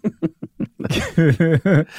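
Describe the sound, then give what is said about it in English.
Throat clearing from a person whose throat is irritated after eating garlic chicken: several short, rough bursts, followed by longer voiced, gravelly throat sounds, loud and without other talk. “So I had to clear my throat.”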